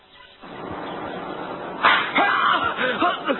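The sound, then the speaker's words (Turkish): A slap in the face lands as one sharp, loud smack, followed by voices reacting in short outbursts. “Gözüm patladı. Kim tokat vurdu? Etrafta kimse de yok. Bir bakışa bir tokat.”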